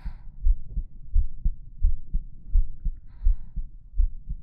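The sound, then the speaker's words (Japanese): A pounding heartbeat repeats as steady, deep, muffled thumps at a regular pace, with each beat landing as a low double pulse. It is fairly loud and heard alone without speech. “自分でも聞こえるぐらいバクバク言ってんのに。”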